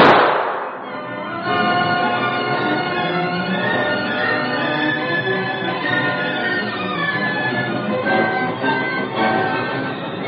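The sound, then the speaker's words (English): Gunshot in an old radio crime drama about racketeers in gas coupons. A single sharp bang opens, then a long, sustained tonal sound holds steady for several seconds. “But I got a couple of lead slugs he can have. Hey, put that gun away. You can't do that and get away with it.”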